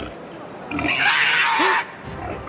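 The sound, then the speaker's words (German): A wild boar grunts: a rough, noisy snorting roar that swells for about a second over a hissy background, with a short squealing tone near its end. “Der Keiler sieht wahnsinnig wild aus. Und er kommt genau auf uns zu.”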